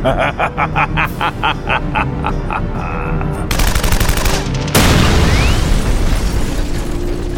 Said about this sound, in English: Holy shit! He blew out the damn wall!